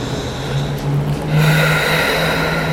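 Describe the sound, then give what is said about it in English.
A slow, deep breath during a guided yoga breathing exercise, airy and fairly loud, over a steady sustained background tone. “Expanding through the heart. Breathe for two more rounds of breath.”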